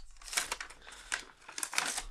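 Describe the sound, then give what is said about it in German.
A numbered paper envelope being opened, with a few bursts of crisp crinkling and tearing paper, fairly loud against a quiet background with no talk. “weil ich würde mal einmal hier den Umschlag mit der Nummer 3 nehmen, ohne zu wissen, was da drin ist.”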